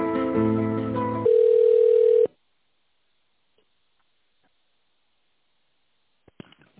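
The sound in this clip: A telephone line tone plays while a call is transferred: a steady, single-pitched tone lasting about a second, preceded by a brief richer multi-tone sound, then silence with a few faint clicks near the end.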